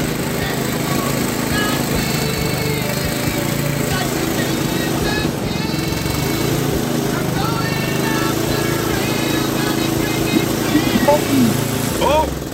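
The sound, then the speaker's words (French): A leaf blower engine drones loudly and steadily throughout during a music guessing game, with people talking and exclaiming over the constant roar. “OK, on part la souffleuse, vas-y.”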